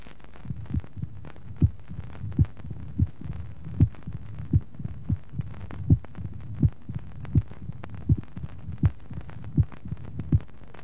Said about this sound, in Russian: До операции на верхушке на фоне мерцательной аритмии определяется усиленный первый тон, протодиастолический шум.